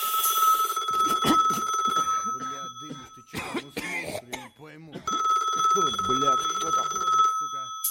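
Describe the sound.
Intermittent ringback tone in a phone receiver after dialing, a steady high electronic tone heard in a stretch at the start and again from the middle to the end, with a voice talking in between.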